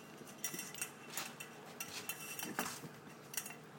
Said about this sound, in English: Now he's pushing his dish along the floor.